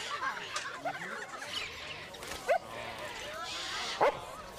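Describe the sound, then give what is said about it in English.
A white and brown bulldog in a cage yips and whimpers, with two short, sharp barks that stand out from a low, busy background of chatter. “He stops at a cage housing a white and brown bulldog.”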